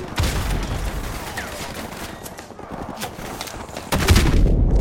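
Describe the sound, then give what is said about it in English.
Video game gunfire rattles as a player shoots at enemies coming down a hill: dense, sustained volleys of rapid shots that grow heavier and louder near the end. “Now shoot towards those guys coming towards you.”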